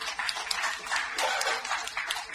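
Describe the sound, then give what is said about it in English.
A church audience clapping hands for the Lord, producing a dense, steady patter of many overlapping claps that stays fairly faint throughout. “Yeah, give the Lord a big old hand clap, guys.”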